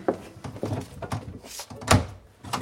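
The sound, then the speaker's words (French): Several dull wooden thumps from a door being opened in a dramatized period scene, separated by short pauses, with no talking. “Ouvre la porte.”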